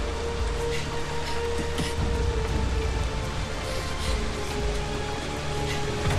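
Rain falls at a gas station where a truck is parked, an even, constant hiss that runs throughout, with a steady low hum beneath it and no voices.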